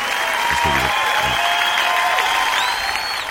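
Audience applause after a ballad at a live concert: dense, steady clapping that fills the whole stretch, with a brief shout or two rising from the crowd.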